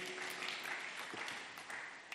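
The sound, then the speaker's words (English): A church audience claps their hands, a faint, steady patter of many hands that continues evenly throughout. “Clap your hands for Jesus. Amen, somebody.”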